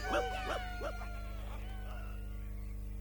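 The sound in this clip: Hounds that have lost a trail give a few sharp barks and yips, then trail off into fainter whimpers over a low, steady hum.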